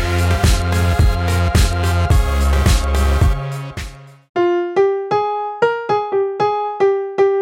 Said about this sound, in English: Okay, so you know the riff, the EDM type riff in the first half. Okay, like, sounds like this.